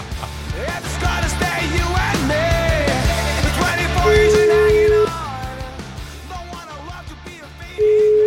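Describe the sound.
A telephone ringback tone sounds while a call is placed: one steady mid-pitched tone about a second long, then a second tone starting right at the end, both over continuous busy background sound.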